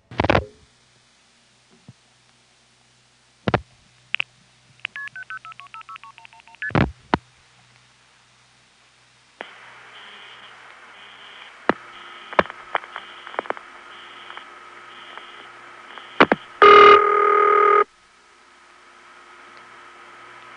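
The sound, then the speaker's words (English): A telephone call dialed and routed from the Hickory NX1 to the Hickory step-by-step exchange: sharp isolated clicks, a quick run of signaling tones, then a long hissy line with a faint steady tone and a brief loud tone burst near the end. “So you can tell that the step is borrowing its ring from the NX1. And here's a call to that. Via Hempstead, Suffolk, Charlotte. 7042. Hickory NX1 to the Hickory step.”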